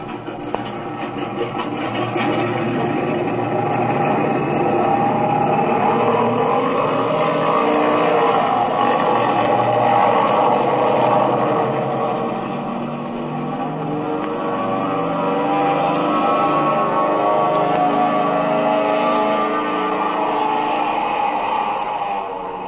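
An airplane engine with a rear cockpit runs at full throttle: a loud, steady, harmonic drone that swells slightly and sustains for over twenty seconds, with no voices.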